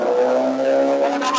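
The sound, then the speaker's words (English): A motorcycle engine drones as the rider makes circles to make noise. A loud, continuous, buzzing engine tone holds throughout, with no speech over it. “the guy with the motorcycle, I think, is doing circles to make noise for us”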